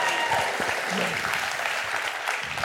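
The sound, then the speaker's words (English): A church audience applauds to welcome the pastor to the pulpit, a dense, steady wash of many hands clapping at an even loudness. “would you give him a great bridge welcome this morning as Pastor Austin brings the word?”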